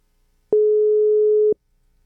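A telephone line tone sounds as a call is placed: a single clean, steady mid-pitched beep lasting about one second, alone between stretches of silence.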